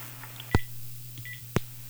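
Telephone dialing tones on a phone line: two short beeps, each marked by a sharp click, spaced about a second apart over a steady low hum.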